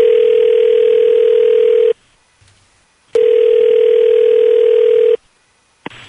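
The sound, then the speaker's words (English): A telephone line tone sounds as a call is placed: two long, steady single-pitch tones of about two seconds each, separated by a short silence, and a third tone begins at the very end. “we're going to call your boyfriend Grant right now.”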